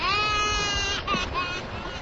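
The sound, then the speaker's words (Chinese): A child crying: a fairly faint, wavering wail with a tearful, strained quality over a noisy background. “你别让他哭嘛。 别哭了。”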